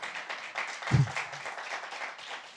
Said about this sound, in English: And you ought to give yourself a hand clap for having me three times.